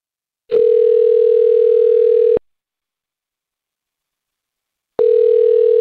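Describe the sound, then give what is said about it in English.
A telephone tone sounds on an outgoing call: a loud, steady mid-pitched tone holds for about two seconds, then a few seconds of silence, then the same tone starts again. “Well, why don't we just call Tara and see if we can get her to talk?”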